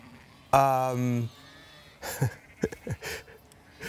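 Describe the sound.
A sheep at a flock gives one loud, drawn-out bleat with a strong, buzzy tone, followed by a person talking in short bursts.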